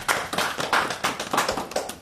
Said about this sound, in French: Et ben, je crois qu'on peut applaudir l'équipe. Hein, bravo.